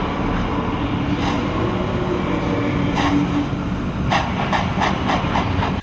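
A train standing at a station a minute before departure, heard as a steady rumbling hiss with a few clanking knocks near the end.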